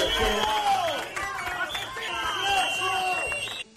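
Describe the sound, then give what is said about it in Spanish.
Crowd booing Spain's interior minister at a PSOE rally in Ourense, shouting accusations of murder and calls to resign: overlapping loud voices and drawn-out falling shouts over constant crowd hubbub. “Abucheos y gritos de asesino, dimisión.”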